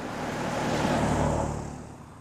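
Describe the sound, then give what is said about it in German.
Cars driving past on a street make a broad, steady rumbling roar that swells toward the middle and then slowly fades. “Fahrende Autos machten ihn immer nervös.”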